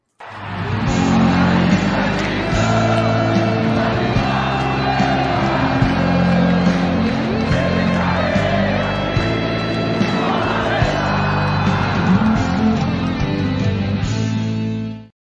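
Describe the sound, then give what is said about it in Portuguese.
Intro jingle of a live online show: loud, dense music with heavy bass plays without a break for about fifteen seconds, with no talk over it. “Eu vou chamar a vinheta e a gente bota para moer.”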